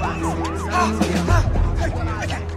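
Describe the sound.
Police and ambulance sirens wail at a barricaded emergency scene, their pitch sweeping up and down in repeated arcs, with a deep rumble joining partway through.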